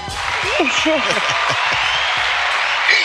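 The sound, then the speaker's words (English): Applause sound effect played as a guest is welcomed: a dense, steady wash of many hand claps holding an even loudness for about three seconds, with crowd cheering voices rising and falling through it in the first half. “It's like we got a whole bunch of people in this room, right? But it's just me and you. You know what I mean? You heard the hand claps. Every crowd goes wild. But yeah, it's just us.”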